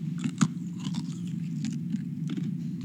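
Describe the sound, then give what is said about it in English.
Biting and chewing as someone tastes trehalose sugar. Small crunchy bites and scraping mouth noises repeat irregularly over a steady low hum, with no talk. “And he even gave me a taste of the trehalose.”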